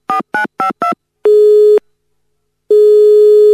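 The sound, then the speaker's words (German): Telephone line tones after dialing a Christmas Island number: four short beeps at shifting pitch, then two long steady tones separated by a silent gap, loud and without talk. “wenn ihr auf den Weihnachtsinseln anrufen wollt, dann müsst ihr die 006724 wählen. Das ist richtig. Äh, ich probiere es mal aus.”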